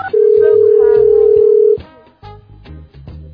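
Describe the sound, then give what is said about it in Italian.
An incoming Skype call rings as one loud, sustained electronic tone lasting well over a second. It cuts off and is followed by quieter voices. “È comparso Radio NK su Skype, cosa vogliamo fare?”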